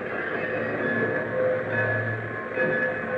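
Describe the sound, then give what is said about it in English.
A streamliner train approaches on the line with a steady, droning low rumble and sustained metallic tones. No voices are heard. “Hey, what's that sound? That moon. It's a streamliner. Right on time. Coming fast.”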